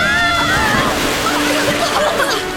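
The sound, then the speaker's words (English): An ocean wave crashes as a sound effect in an audio drama, a loud surging, sloshing wash of water with voices crying out over it. “Watch out. Here comes another wave.”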